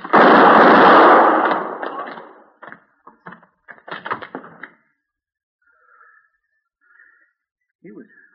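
A loud gunshot in a radio western drama with a marshal, heard as a broad blast that decays over about two seconds. Several shorter, fainter impacts follow, then near silence.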